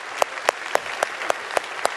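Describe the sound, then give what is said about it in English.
A church audience applauds, a steady wash of clapping punctuated by sharp, evenly spaced accents about every quarter second, giving the applause a strong regular beat. “Let's cheer for that real quick. All campuses.”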